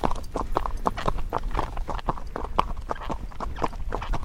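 Hooves of a trotting horse clip-clopping in a steady, even rhythm, with many crisp, distinct beats continuing throughout at a moderate level.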